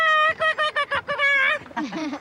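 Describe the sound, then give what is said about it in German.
Pied oystercatcher, a black-and-white bird with a red bill, giving its frequent squeaky call: a quick run of bright, piping notes that merges into a longer squeal, followed by a lower, wavering trailing note. “Der Austernfischer Hematopus australegus ist ein schwarz-weiß gefiederter Vogel mit einem roten Schnabel. Sein häufiger und quietschender Ruf ist nicht zu überhören.”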